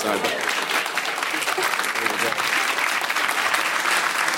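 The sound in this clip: A live audience breaks into loud, continuous applause, with dense overlapping clapping and some crowd noise that stays at full strength from start to finish.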